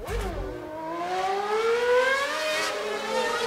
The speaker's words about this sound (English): Need to play some Formula One tunes and noise in the background because that's what gets me excited.